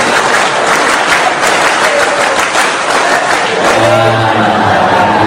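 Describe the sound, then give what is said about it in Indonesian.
Clapping from a large crowd doing an Indonesian scout clap routine, a dense, loud wash of many hands that carries on without a break, uneven in places. “Tepuk satu, tepuk dua, tepuk satu, tepuk tiga, tepuk pramuka.”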